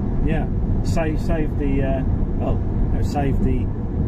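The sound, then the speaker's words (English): Low road rumble inside a moving car, a steady drone that runs under people talking throughout. “So we are in a car now.”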